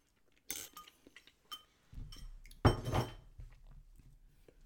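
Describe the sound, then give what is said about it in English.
Dishes and cutlery clink and clatter while someone finishes cooking, a run of sharp metallic taps and knocks with a low scraping rumble and one louder burst of rattling partway through, then fading to lighter clinks. No one speaks. “I'm finishing this and it's going to make a lot of clinking.”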